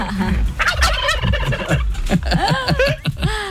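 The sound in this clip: A voice imitates chickens with a rapid, continuous run of clucks and squawks. The calls are loud and jumbled, with many short bursts following each other without pause.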